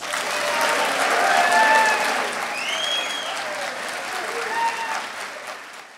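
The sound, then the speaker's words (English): Warm applause from a live audience welcoming a guest at a book event in Manchester Center, Vermont, swelling early then gradually thinning and fading, with voices heard over it. “He joins us for this off-the-shelf edition of The Book Show, recorded live before a live audience in Manchester Center, Vermont. Please welcome Jeffrey Toobin.”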